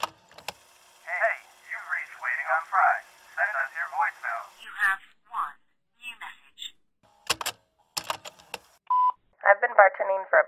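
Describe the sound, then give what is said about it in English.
Telephone keypad tones while checking voicemail: a quick run of many short beeping button presses, a pause with brief voices and clicks, then another burst of rapid keypad beeps. “we should probably check our voicemail real quick”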